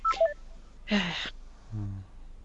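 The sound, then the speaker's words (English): Telephone keypad tones: a quick run of short, high DTMF beeps at the start, followed by a noisy burst and a lower steady tone. “I don't know why the dial tones aren't going over into the numbers.”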